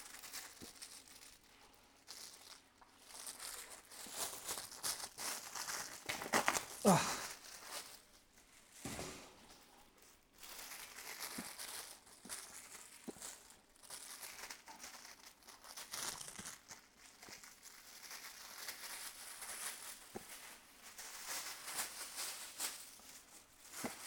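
Plastic bag being torn open and crinkled, with seasoning smeared on it, a long run of irregular rustles and crackles with a few louder crunchy bursts, fairly quiet throughout.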